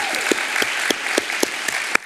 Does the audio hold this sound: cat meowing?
no